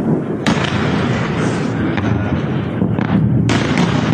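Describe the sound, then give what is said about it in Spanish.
Explosions from a ballistic missile attack on bases in Jordan: several sharp, booming blasts burst over a continuous low rumble that keeps the whole stretch loud. “También han atacado bases en Jordania, donde se han interceptado hasta 18 misiles balísticos. Este era el sonido.”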